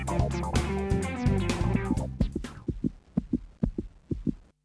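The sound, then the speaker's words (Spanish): A heartbeat thumps in a steady rhythm of low, paired beats, several in a row, rising out of loud music that fades away during the first half. “Cuando arrimás la oreja a La Colectiva, vas a escuchar latidos.”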